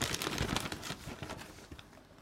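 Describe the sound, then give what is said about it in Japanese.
A snack package, a nut tartlet, is torn open with a loud crinkling rip and a burst of rustling that fades over about two seconds. “そしてこのプロのお菓子ちょっとねバーって開けちゃいましょうか。”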